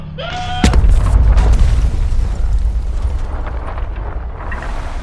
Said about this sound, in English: Bezor has flown directly into the asteroid cluster. His ship is now in tatters. What a hit! I've never seen something so big crack so hard upon impact.